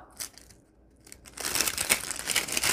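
Crinkling of a small handmade crinkly bag with a scalloped-edge top. A few brief crackles come first, then a louder, continuous crackly rustle fills the second half.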